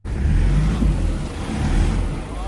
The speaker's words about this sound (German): Wenn die Reifen durchdrehen, hilft kein Gas geben mehr.